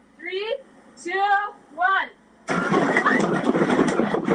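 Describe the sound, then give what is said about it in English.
Earthquake simulator shake trailer imitating a 7.0 quake in a civic plaza: a loud, steady mechanical roar and rumble that starts abruptly after a voice calls out three short words. “that's the shake trailer here in Civic Center Plaza, giving people who weren't here in 1989 a taste of what being on top of the epicenter may have been like”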